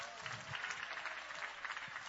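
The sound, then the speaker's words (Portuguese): A church audience claps their hands during a worship service, a faint, steady wash of many hands clapping together without pause. “Mais alegre as palmas. Bate as palmas e dá glória a Deus.”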